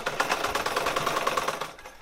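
Sewing machine stitching rapidly as a fashion designer fills orders, a dense, steady mechanical chatter that keeps an even fast rhythm throughout and fades slightly at the very end.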